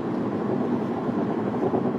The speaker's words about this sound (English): The plane is flying real close to the ground over there.